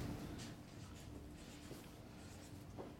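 Faint writing on a board makes soft, scratchy strokes in a steady, quiet stream.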